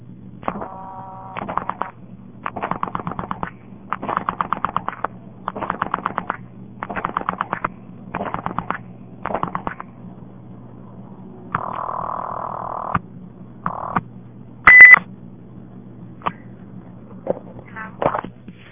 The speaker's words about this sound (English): I'll probably never find the number again, but I've got to hear this ring.